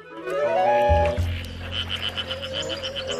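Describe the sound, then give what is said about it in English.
Male frogs calling around a pool with twigs and branches reaching down into the water, giving quick pulsed, rattling chirps in a rapid series over a low rumble. “Male frogs call, then dozens are dotted about on twigs and branches reaching down into the water.”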